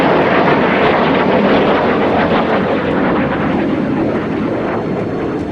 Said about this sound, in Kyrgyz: Төңкөрүшчүлөр көзөмөлдөгөн F-16 учактары коомчулукту коркутуу үчүн Анкаранын үстүнөн төмөндө көчө баштады.